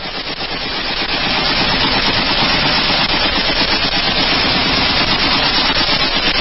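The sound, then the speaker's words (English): Rapid automatic gunfire from a gun being fired, a loud, continuous rattling stream of closely spaced shots that holds steady for the whole stretch with no pauses and no voices. “That's firing a gun?”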